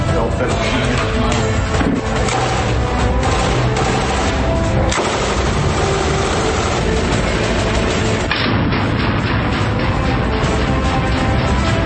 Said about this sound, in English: Got an M249 saw.